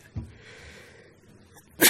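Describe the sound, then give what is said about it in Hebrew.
A person sneezes once during a religious lesson. The sneeze is a sharp, loud burst that comes at the very end, after a stretch of quiet background. “זה סימן טוב, שאדם מתעטש לסימן טוב.”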